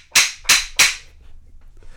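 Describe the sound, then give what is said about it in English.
Three sharp, loud gunshot-like cracks come in quick, evenly spaced succession, then fade into a low background with no further shots. “Shots fired. Shots have been fired. Those were shots I could have sworn.”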